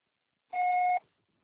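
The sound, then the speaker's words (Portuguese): Voicemail tone before recording a message: one clean electronic beep lasting about half a second, steady in pitch, heard alone against silence. “Grave seu recado. O processo será tarifado após o sinal.”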